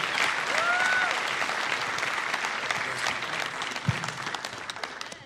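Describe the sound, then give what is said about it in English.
An audience applauds to welcome a guest preacher at a church service. The clapping is loud and dense, holding steady for several seconds before gradually thinning toward the end. “Come on, would you put your hands together and let's welcome our good friend here today with the word of the Lord.”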